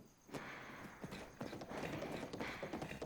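Horse hooves clip-clop while it is ridden, giving a quick, steady run of many hollow knocking steps at a fairly even rhythm and moderate loudness, without talk.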